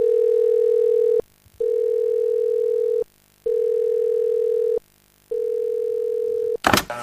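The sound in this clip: A telephone line tone sounds while a call is being placed: four steady mid-pitched tones about a second long, separated by short silences, then a brief crackling burst at the end.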